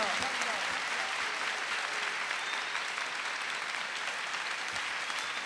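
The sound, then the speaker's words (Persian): Audience clapping called for as a Heydari clap, a dense continuous wash of many hands applauding, steady and fairly faint throughout. “استقبال کن با یک کف حیدری اول بزن ماشاءالله”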